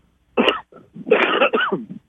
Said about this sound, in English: See, now I cough and it's gone.